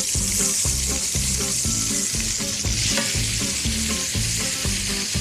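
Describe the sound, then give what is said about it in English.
Extra virgin olive oil, onion and peppers frying in a pan give a loud, steady sizzle that runs unbroken through the whole clip, with no talk. “Now, I'm going to add about a quarter cup more of extra virgin olive oil and our onion and peppers.”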